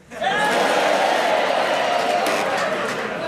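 A studio audience shouts and cheers during a panel game, a loud crowd roar that swells up within a moment and holds steady for a few seconds.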